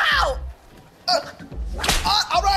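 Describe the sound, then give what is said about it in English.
A whip strike lands as a sharp crack, with voices crying out before and after the hit. “She grins maniacally as she whips him.”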